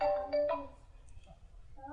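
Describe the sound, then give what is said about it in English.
A mobile phone ringtone sounds during a spoken lecture: a few short, bright melodic notes in quick succession, then quieter sounds and the start of a voice at the end. “kindly off your cell phone, to use English, Indian English, or put it in silent mode.”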